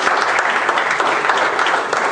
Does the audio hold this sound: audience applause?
yes